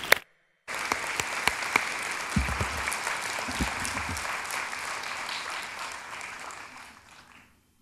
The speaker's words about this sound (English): So would you put your hands together and give a warm welcome to the Reverend Jimmy Bratcher.